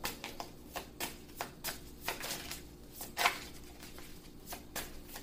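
Tarot cards are shuffled and drawn, making many quiet papery flicks and snaps in an irregular rhythm, heard alone without talk.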